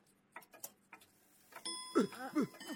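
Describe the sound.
A clock rings to announce bedtime: a few sharp ticks or clicks, then a bright, sustained ringing chime with shimmering, wavering tones. It is fairly quiet overall.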